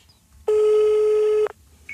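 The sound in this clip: A telephone rings out as a call is placed to a lecturer. There is one steady, loud ringback tone lasting about a second, heard on its own.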